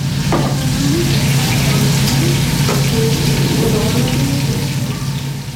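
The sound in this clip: Food frying in a kitchen gives a loud, steady sizzling hiss that runs unbroken through the whole clip, with a low hum beneath it.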